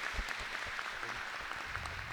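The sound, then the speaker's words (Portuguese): Applause from the local community gathered at the Santuário da Mãe in Marcelino Ramos: a soft, steady patter of many hands that stays even throughout. “Levanta a mão, comunidade local de Marcelino Ramos, nossa saudação, uma salva de palmas, bem-vindo sempre.”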